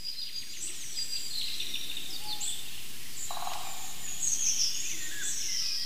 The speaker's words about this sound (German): Er hält den Schnabel, weil der Pirol so wunderbar heute aussingt, muss man schon sagen.